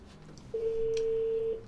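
A telephone ringback tone on the line while a call is placed: a single steady, mid-pitched beep lasting about a second, following a short quiet stretch.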